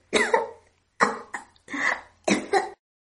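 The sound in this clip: A woman coughing after swallowing a pill that catches in her throat, in four harsh, loud bursts separated by short silences, with no speech.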